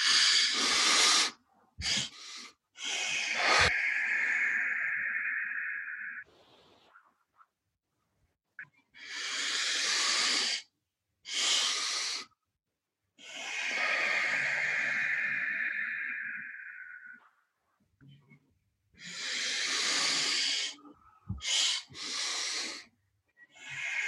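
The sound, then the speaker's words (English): A breathing exercise repeats its pattern: a sharp inhale, a short extra sip of air on top, then a long, hissing exhale. Loud and close with silent gaps between breaths, the cycle runs about twice and begins again, with no talk. “So we'll do an inhale, and then at the top of our inhale, we'll do another small inhale, and then we'll do a long exhale out.”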